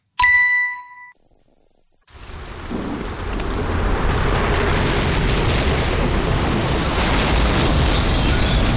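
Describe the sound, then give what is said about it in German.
Storm sound effect of a roof being torn off a house: one bright chime rings out, a short near-silence follows, then a loud, continuous rushing roar of wind and pounding rain swells up and holds to the end. “Ah, sagt euch da mal, mein Dach hat es jetzt gerade weggerissen.”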